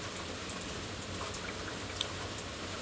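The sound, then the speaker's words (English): Rain falls with a soft, continuous hiss, an even patter that stays faint and steady, with no voices present. “I feel like the rain is like a type of curtain, you know, like when it rains,”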